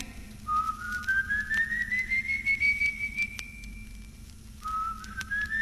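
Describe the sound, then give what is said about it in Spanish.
A long eerie whistle glides steadily upward in pitch over several seconds, fades, then starts again low and rises once more, clear and piercing above a faint low hum. “Un nuevo silbido, esta vez más espeluznante y agudo, hace que Juan Hilario”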